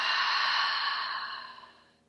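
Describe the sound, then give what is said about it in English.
A slow breath during a guided breathing exercise: one long, soft, airy exhale that fades gradually over about two seconds. No voice over it. “Again, gently breathing in and out.”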